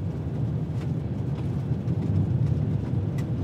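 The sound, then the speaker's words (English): Four-wheel drive tires rolling over the dirt and rocks of an unpaved country road in Maine, a steady low rumble with scattered faint crackles and no pauses throughout. “This is not a paved road. You can hear the dirt and the rocks coming up in the tires of the four-wheel drive.”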